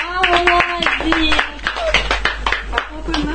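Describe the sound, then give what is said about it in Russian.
Hand clapping: many sharp, irregular claps under frequent talking voices, with a low, steady hum running underneath throughout. “Давайте похлопаем мне. И отдельно похлопаем Андрею Мастеду за то, что он нашел эту программку. Похлопайте ему.”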